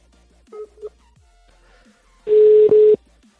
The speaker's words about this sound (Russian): Набираю еще раз, бля. Я еще раз наберу.